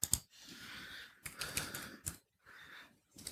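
Typing on a computer keyboard, quiet bursts of rapid clicks broken by short silent pauses.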